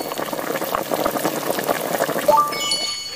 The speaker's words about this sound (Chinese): 酱炒好以后，我们又加水了啊，五勺水。炖20分钟。